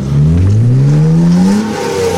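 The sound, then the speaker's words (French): A black BMW with tinted windows revs hard while drifting in a dimly lit industrial car park at night. The loud engine note climbs steadily, then drops and keeps roaring alone. “Une BMW noire, vitre teintée, vient tester ses capacités de dérapage contrôlé.”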